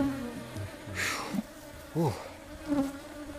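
Honeybees buzz around an open hive on a beehive fence in the Kilombero Valley, a faint, continuous drone that swells briefly a few times.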